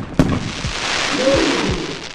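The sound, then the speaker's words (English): Fireworks exploding at a display: one sharp bang near the start, followed by a few deeper thuds over a steady crackling hiss that fills the whole clip. “This would mostly protect them from sparks as they ran around lighting fireworks.”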